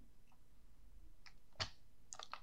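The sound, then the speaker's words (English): Faint computer mouse clicks on a web link, a few short dry ticks with one sharper than the rest, over a low steady background. “I'll click on the the link to this Reddit page.”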